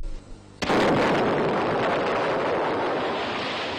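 An artillery shell strikes the Chinese battleship Dingyuan during a naval battle with the Japanese fleet: a sudden loud blast gives way to a sustained, roaring rumble of broad noise.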